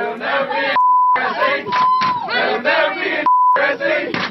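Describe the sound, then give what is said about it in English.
Loud group chanting from a fraternity video, with offensive words masked by censor bleeps. Three steady, high beeps cut into the rhythmic crowd voices at intervals. “We have a little bit of sound from that video. Yeah, we've bleeped the offensive words, but let's listen.”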